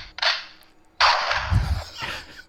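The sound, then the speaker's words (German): A gunshot sound effect played from a soundboard gives two sharp, loud cracks about a second apart, each with a short noisy tail, and a dull low thud follows the second. “Der Gnadenschuss, wenn der Song so richtig schlecht ist.”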